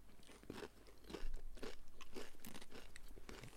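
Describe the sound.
Pringles crisps being eaten: faint, repeated crunching bites followed by a run of rapid, rhythmic chewing crunches.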